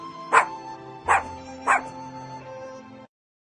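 Puppy barking: three short, high yips spaced about a second apart, fairly faint, over a low steady hum.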